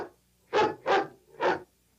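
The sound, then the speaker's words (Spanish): Three sharp, evenly spaced dog-like barks, used as a cartoon effect for a quarterback calling the signal in a 1944 animated short about American football. The barks are loud and clear, with nothing else heard. “El mariscal ladra la señal.”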